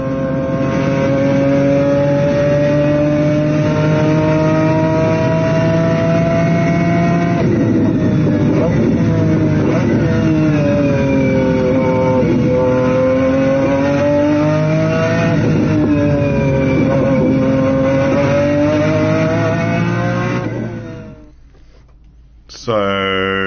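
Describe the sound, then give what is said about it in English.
BMW V12 engine of a McLaren F1 race car screams through repeated high-pitched revs, its pitch rising and falling across several gear runs, loud and continuous before cutting away abruptly near the end. “So that, maybe you might recognize, is a BMW V12 in a McLaren F1.”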